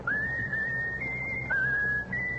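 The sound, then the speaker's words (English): Whistling of a favorite tune: a few sustained, clear high notes with small steps in pitch between them, heard alone over a low background hum. “Whistle your favorite tune. Whistle.”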